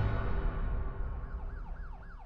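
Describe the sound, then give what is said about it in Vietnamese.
A police car siren as the car pulls up in front of an apartment building, wailing up and down in repeated rising and falling sweeps over a low rumble. “Xe cảnh sát dừng lại trước cửa tòa nhà Riverside.”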